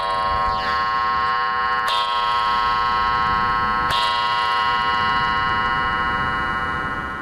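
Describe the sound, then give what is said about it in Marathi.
A clock strikes the hour with a few long, ringing metallic strokes about two seconds apart, each blooming into a sustained, bright harmonic tone. The clock is faulty and strikes one more time than the hour. “अरे घड्याळाची गंमतच आहे बघ माझ्या. तीन टोले पडले म्हणजे दोन वाजलेत असं समजायचं.”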